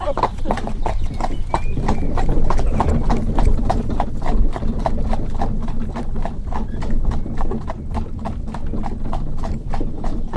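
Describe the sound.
A seven-year-old purebred Norman cob mare's hooves clip-clop steadily as she pulls a carriage, with many evenly spaced, loud hoof strikes at a brisk, regular rhythm throughout.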